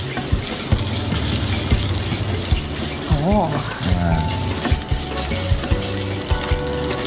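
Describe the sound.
Pork being stir-fried in a pan, a dense, steady sizzling hiss throughout with occasional scraping clicks, and voices briefly heard over it.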